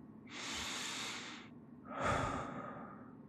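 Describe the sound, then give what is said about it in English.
Deep breathing from a person struggling to focus: two long, airy breaths, the first lasting about a second and the second rougher and louder, with no talk. “You're okay. Deep breaths.”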